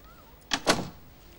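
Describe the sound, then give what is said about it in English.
A door shuts in two quick thumps, the second fuller than the first, with a quiet hush before and after. “Close the door.”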